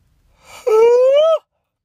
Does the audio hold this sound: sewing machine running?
no

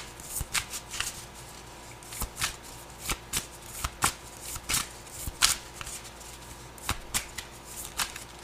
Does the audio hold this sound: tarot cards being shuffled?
yes

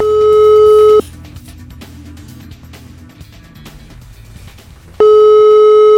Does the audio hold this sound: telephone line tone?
yes

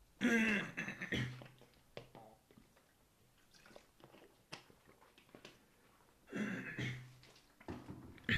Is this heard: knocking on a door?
no

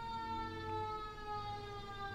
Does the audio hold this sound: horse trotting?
no

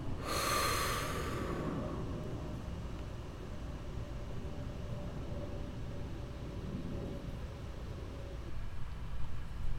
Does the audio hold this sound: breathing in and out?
yes

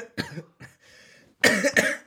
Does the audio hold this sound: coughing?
yes

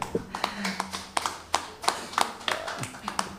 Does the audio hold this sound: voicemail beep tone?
no

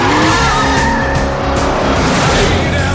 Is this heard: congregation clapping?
no

